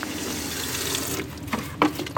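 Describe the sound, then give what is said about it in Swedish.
Liquid swishes as thin, heavily pigmented paint is stirred in large buckets at a sink at one end of an assembly hall: a continuous watery rush that breaks into a few louder splashes toward the end, with no talk. “börjar dagen med att röra om i sina stora färghinkar vid diskbänken i ena änden av monteringshallen”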